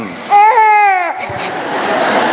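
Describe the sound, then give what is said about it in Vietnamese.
An infant cries at a church gathering, one loud, high wailing cry lasting just under a second, then trailing into quieter whimpering and background noise. “Này hết khóc cái gì? Cứ đưa micro vào nó hết khóc.”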